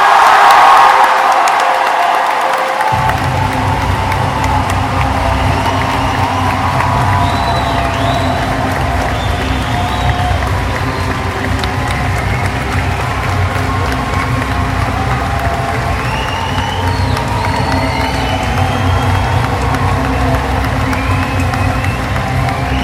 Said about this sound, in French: on va tout de suite vous demander de faire un tonnerre d'applaudissements à Monsieur Alexandre Astier.